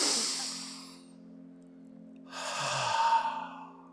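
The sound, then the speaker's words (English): A deep breath, heard as two long airy rushes of breath separated by a quiet pause, soft and unhurried over a faint steady low hum. “let's take a deep breath.”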